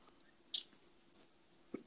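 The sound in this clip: A short, sharp cough bursts out at the very end after a few faint throat sounds, as a man chokes on something that went down the wrong pipe.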